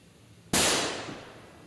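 A gunshot rings out as a single sharp, loud bang that cuts in abruptly, then decays over about a second into a fading, noisy tail.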